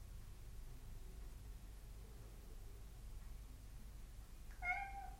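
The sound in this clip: A kitten purrs in a faint, continuous low rumble with an even texture, then lets out a single short meow just before the end.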